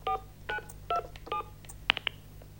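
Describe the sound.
A telephone number being dialed: four evenly spaced touch-tone beeps, each short and bright, then a couple of sharp little clicks.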